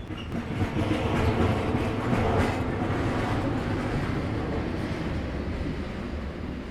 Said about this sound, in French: j'entends encore le roulement du train sur les rails vides